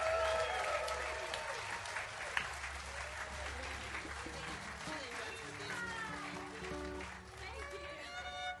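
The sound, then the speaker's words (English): An audience claps and cheers for a performer at an outdoor concert on a lawn. The applause is steady and fairly quiet throughout, with scattered whistles and shouting voices mixed in. “Please make more noise than humanly possible for KC Groves.”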